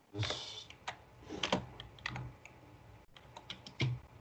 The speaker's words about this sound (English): You can just type in like Trump refused to rent